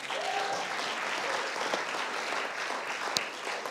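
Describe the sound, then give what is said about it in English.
Applause from a church audience welcoming their pastor, a steady dense patter of many hands clapping throughout, with one sharper clap near the end. “Give her a hand.”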